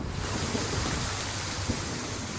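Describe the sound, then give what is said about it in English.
Rainwater drips off hanging vegetation in a forest during the southern Indian monsoon, making a steady, dense hiss of falling water with faint scattered patters beneath it. “Rainwater dripping off hanging vegetation in a forest.”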